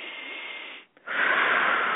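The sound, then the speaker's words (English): One deep breath is drawn in through the nose as a soft, airy hiss, then a brief pause, then a louder, fuller exhale out through the mouth. “Three deep breaths in and out. Let's go. In through your nose, out through your”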